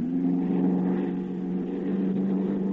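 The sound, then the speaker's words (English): A small airplane's engine is run up while flying over an airfield at dusk, giving a steady, droning low hum that stays fairly even throughout, with no talk. “Jazz the motor”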